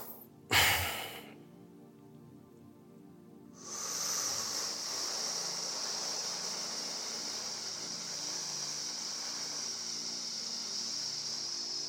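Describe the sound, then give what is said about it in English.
Loud, slow breathing during a breath-regulation exercise. A short sharp sound near the start comes before a long, steady, airy breath that lasts several seconds at an even level. “And now I'm just breathing loud that you can hear it”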